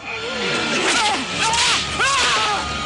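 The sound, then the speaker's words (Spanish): A guard strikes an old slave in an animated film set in ancient Egypt: swishing, whip-like lashes cut through a dense mix of pained cries and other voices. “Un guardia golpea a un esclavo anciano.”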